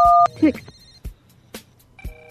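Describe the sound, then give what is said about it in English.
A single short, loud telephone keypad tone sounds as a number is pressed to accept an incoming call, followed by talking. “Call from unknown caller. To accept, press 1. To send a voicemail, press 2.”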